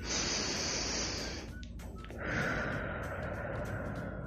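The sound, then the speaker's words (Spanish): Deep breathing during a guided exercise, two long, airy breath sounds with a short pause between them. “Muy bien, vamos a respirar tres veces. Primero, uno.”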